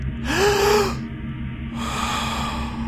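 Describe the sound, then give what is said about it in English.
A person takes a big deep breath: a loud, gasping inhale with a slight whistling rise, then a longer, softer breathy rush of air, all over a steady low hum. “Big breath. Again. Again. Again.”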